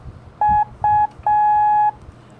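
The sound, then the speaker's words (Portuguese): Morse code tones: two short beeps and then one long beep, all at the same steady pitch over faint background noise, forming the letter U. “Termina com um sonzinho curto, de, é a letra S de sierra. E a letra U termina com um som longo”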